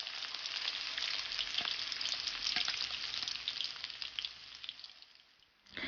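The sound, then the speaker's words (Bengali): Chicken pieces deep-frying in hot oil in a frying pan, a dense, continuous bright sizzle with fine crackling throughout that dips briefly near the end before resuming, loud and with no voices. “মুরগির মাংস নামিয়ে নেওয়ার ঠিক আগে আগে তেলের তাপমাত্রা বাড়িয়ে 170 ডিগ্রি করে নিন।”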